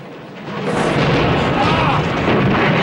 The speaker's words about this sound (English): The fuel pumps explode in a huge fireball, throwing Diggs and Sorensen to the ground and demolishing Marvin's Motown Motors.